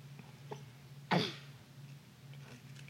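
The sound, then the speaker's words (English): A single sharp hiccup bursts out abruptly and fairly loudly after someone drinks soda from a can, set against a low steady hum. “I think they're both hiccuping.”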